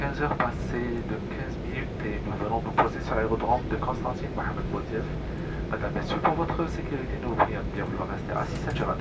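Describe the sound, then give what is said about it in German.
Airplane noise during an afternoon approach and landing at the airport of Constantine: a steady, broad engine roar throughout, with voices talking over it. “Anflug auf Konstantin. Es ist Nachmittag. Landung am Flughafen Mohamed Boudiaf.”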